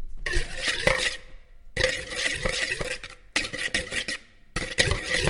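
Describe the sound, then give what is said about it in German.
Egg yolks and vanilla sugar are stirred in a bowl until pale, in four bursts of steady scraping and clinking separated by brief pauses. “Das tut ihr rühren, bis die Masse hell ist.”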